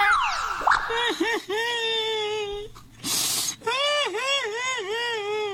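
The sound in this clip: A man cries loudly in long, drawn-out wails that waver up and down in pitch, several cries in a row, broken once by a brief noisy burst before the wailing resumes.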